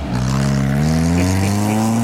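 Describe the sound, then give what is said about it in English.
A Brinks armored truck's engine is fired up and run in reverse, giving a loud, continuous motor drone whose pitch climbs gently over about two seconds. “Oh, we got to fire up the Brinks truck. Hold on a second here. We're backing it up.”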